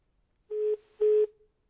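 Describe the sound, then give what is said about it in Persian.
Telephone line tone after a caller's line disconnected: two short, steady mid-pitched beeps separated by a brief gap, heard alone against silence. “خب تماسشون ظاهرا قطع شد”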